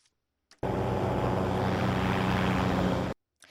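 Steady, loud whirring hum of a drone aircraft used in Malawi for delivering medicine and collecting blood samples, starting abruptly, holding an even broad roar for about two and a half seconds, then cutting off sharply.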